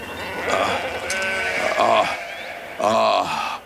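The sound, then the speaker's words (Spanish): Sheep bleating in a flock, a few loud, wavering bleats in separate bursts with short pauses between them, each a nasal, quavering cry. “Aparta a las ovejas.”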